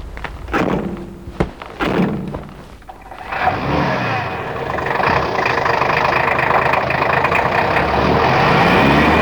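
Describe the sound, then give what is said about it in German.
A few heavy car-door thunks come first, then a car engine starts and the vehicle sets off. The engine hum is loud and steady and carries on to the end. “Kommt, steigt ein. Wir fahren los.”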